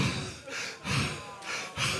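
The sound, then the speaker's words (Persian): A voice imitating heavy panting breath: a few rough, rhythmic gasping breaths follow one another in steady succession, breathy and fairly loud, with no words. “تیغ تیغ حسنی بود اومد ولی اینطوری نفس میزد، نگاه”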